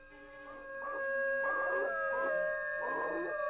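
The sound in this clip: A black dog howls and cries after being grabbed by the tail and held. A few wavering, yelping wails rise and fall over a steady sustained droning tone.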